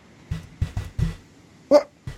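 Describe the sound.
A dog makes six short, low, muffled woofs or huffs in an uneven rhythm, the fifth louder and higher than the rest, with quiet gaps between them.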